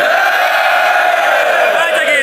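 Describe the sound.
A crowd cheers and yells for the first round of a contest, a loud, dense roar of many voices that holds steady throughout.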